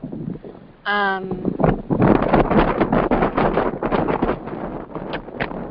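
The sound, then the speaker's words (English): Wind blows across a microphone outdoors in Amsterdam on a windy day, making rough, low, rumbling buffets that surge and fade irregularly through the whole stretch. “you're having some weather in Amsterdam. Yeah. It's a little windy today here.”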